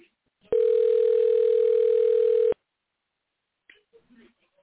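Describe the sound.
A telephone call rings while trying to get through: one steady ringback tone lasts about two seconds, then silence, then faint voice sounds near the end.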